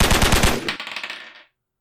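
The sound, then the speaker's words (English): Submachine gun firing a rapid, loud burst of sharp shots in quick succession that trails off into a fading tail after about a second and a half. “And he's going to fire that SMG.”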